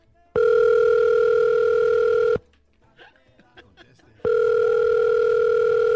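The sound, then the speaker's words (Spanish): Ringback tone of an outgoing telephone call: two long, steady electronic rings separated by a pause of about two seconds, filled only with faint, scattered background sounds. “Déjame llamarle a Puyo otra vez para que no vaya a quedar en vergüenza aquí.”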